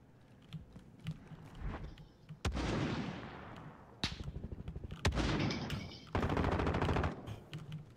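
Automatic gunfire in a first-person shooter video game, sounding as several loud bursts: rapid, evenly spaced shots in some bursts and dense, roaring volleys in others, separated by brief quieter gaps.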